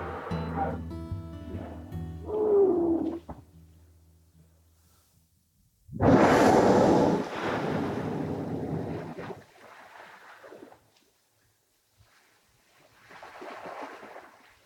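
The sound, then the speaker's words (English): Whales breathing and spouting at sea: a few broad, whooshing blasts of exhaled air, the first loud and sustained, the later ones softer, separated by quiet stretches. “this is a fairly delightful and sometimes common sound when we're amongst the whales. Whales breathing, whales spouting”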